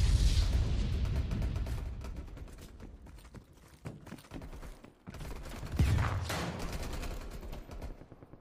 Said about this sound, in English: I'm under fire, boys.